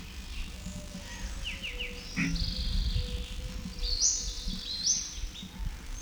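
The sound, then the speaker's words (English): Several birds call faintly: a quick run of short, high, descending chirps early on, then longer high whistled notes over a low, steady background hiss. “Still several birds present. These notes are indistinguishable.”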